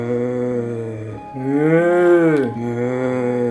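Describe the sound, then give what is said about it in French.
A cow gives one long, low, droning moo as cattle are let out of the barn on a farm. The moo swells louder and strains in the middle, then eases back to a steady low groan. “Son bruit préféré, c'est le meuglement des vaches quand on les sort de l'étable.”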